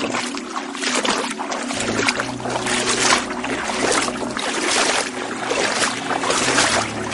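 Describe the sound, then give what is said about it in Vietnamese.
Footsteps wade through water at a cave entrance, giving a continuous, fairly loud sloshing and splashing with a few stronger surges and no voices. “Dục Du định phản bác nhưng chợt nghe thấy tiếng lội nước ở phía cửa hang.”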